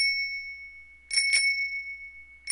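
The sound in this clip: A bicycle bell, one of the toys, rings with bright metallic tones that hold and slowly fade: a quick double ring midway and a fresh ring at the very end.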